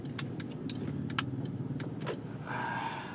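Car interior while driving: a steady low engine and road rumble runs throughout, with scattered light clicks and rattles on top and a brief rise in noise near the end.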